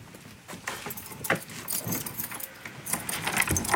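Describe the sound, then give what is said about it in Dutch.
Keys jangle and clink as a security gate is unlocked and opened at a home under renovation, producing a busy run of metallic rattles and clicks over a low, steady rumble. “We doen nou de veiligheidshek open.”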